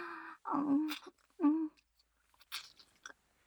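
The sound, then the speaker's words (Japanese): Someone chewing steak: short bursts of wet, crunchy biting and mastication, broken by humming vocal sounds and quiet pauses. “ま、でも、ごちそうさま。ステーキって二番絞りでも美味しいね。この味ハマりそう。”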